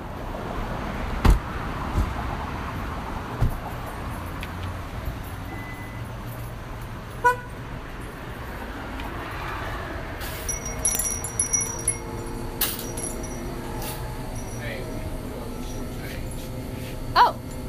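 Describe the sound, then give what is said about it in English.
Gas station ambience: a steady background hum of traffic with occasional clicks, knocks and clinks, a brief car horn toot and faint voices in the background. “So we should probably play the audio from our gas station visit.”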